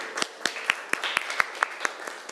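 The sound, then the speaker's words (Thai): A class of students claps for themselves in a classroom lesson with ten evenly spaced claps in unison, a steady rhythmic series of crisp, moderately loud hits. “ลักทรัพย์ถูกต้องหรือไม่ถูกต้องปรบมือให้ตัวเองหน่อยค่ะ”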